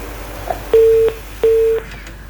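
A telephone line tone follows a dropped call-in: two short, steady, mid-pitched beeps, evenly spaced and alone over faint line hiss.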